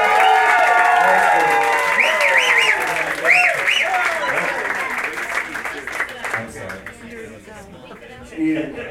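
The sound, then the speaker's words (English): Audience applause at a prom as students enter for the final judging of prom king and prom queen, a dense sustained clapping with cheering voices and whoops over it, easing slightly toward the end. “let's have a nice big hand for your students as they come in for the final judging of Prom King and Prom Queen.”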